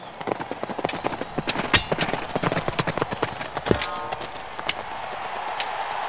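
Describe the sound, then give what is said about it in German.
Horses' hooves pound as two knights on horseback charge fast toward each other in a joust at a medieval tournament. Many quick, irregular clops are heard, with a few louder, sharper hits standing out. “Da drüben reiten nur zwei Ritter aufeinander zu. Die sind ganz schön schnell.”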